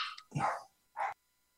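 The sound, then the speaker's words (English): Dogs barking in an office, a couple of short faint barks close together with quiet between them. “Yeah, I'm in the office and all the dogs just came in.”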